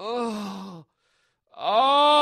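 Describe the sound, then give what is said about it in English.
A human voice imitates rocket gas containers separating with two drawn-out groans split by a short silence. The first is steady and slightly falling, and the second, louder one swoops upward and then holds. “they should have a big loudspeaker on the side of the thing with a big groan. And the gas containers have separated.”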